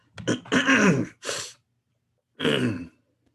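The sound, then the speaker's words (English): A doctor clears his throat: a few rough, raspy bursts, the first longer and louder, then a short pause before a final clearing, with no speech. “cleared his throat and said”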